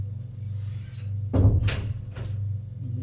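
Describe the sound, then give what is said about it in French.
A door opens with a few short knocks and clicks over a steady low hum, the middle sound the loudest. “La porte s'ouvre.”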